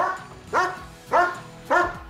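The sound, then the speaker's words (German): Dogs barking at an outdoor swimming pool's end-of-season dog swim in Bavaria: three loud, sharp barks spaced evenly apart, each with a brief tonal yelp quality, over faint background noise. “Für die Dackel, für die Labradore, für die Pudel. An diesem Wochenende ist Hundeschwimmen angesagt.”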